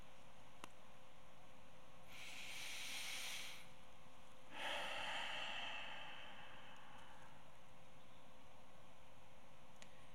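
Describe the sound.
A group takes slow breaths with eyes closed at the start of a quiet prayer session. Two soft, airy swells of breath rise over a faint low hiss, the second longer than the first.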